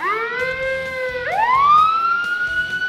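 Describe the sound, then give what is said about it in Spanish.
A police car siren wails loud and alone, holding a steady tone, then dipping and climbing back up in a long sweep that keeps rising toward the end. “Y dirás tú, pues si las sirenas de la policía son azules.”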